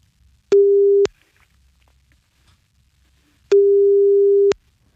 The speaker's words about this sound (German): So, dann rufe ich da jetzt mal an, ja?